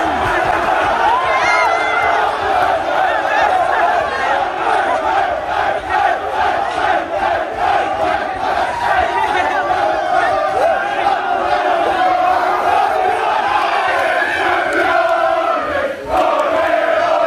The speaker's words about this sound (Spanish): No, no, si es que era el sonido seguido del Arsenal celebrándolo. Es un minuto más o menos. Mira, escucha. Terminaban con el campeones.